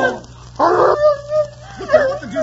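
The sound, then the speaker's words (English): A dog barks once, sharply, then lets out a drawn-out, high whimpering whine. A few short whining yelps come near the end. “What the deuce are you doing with my dog?”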